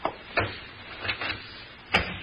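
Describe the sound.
A door to an office, just opened with a skeleton key, being closed carefully: several soft thumps and clicks spread across the moment, quiet against a faint steady hiss, with no talk.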